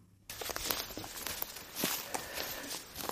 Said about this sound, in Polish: W lesie. Idziemy po suchych szyszkach. Tak, sosnowych suchych szyszkach.